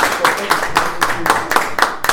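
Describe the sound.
An audience claps together in a steady rhythm, roughly four evenly spaced beats each second. The sharp, uniform bursts continue throughout at a strong level.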